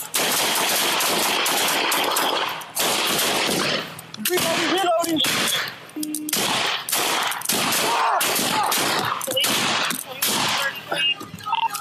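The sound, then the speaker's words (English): Rapid rifle gunfire during a police shooting, many loud sharp bursts crowding together almost without pause, with a few brief gaps, across the whole stretch. “Shots fired! Police action shooting! He's got a rifle!”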